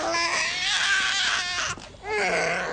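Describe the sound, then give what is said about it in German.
Newborn baby crying and screaming in a continuous, high, strained wail that wavers in pitch, with a brief drop in loudness partway through before the crying resumes at full strength. “Saga und John haben offenbar ein Schreikind zur Welt gebracht. Es hört und hört nicht auf.”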